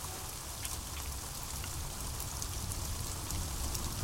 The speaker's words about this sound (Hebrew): יש פה קצת גשם, גשם וחליל.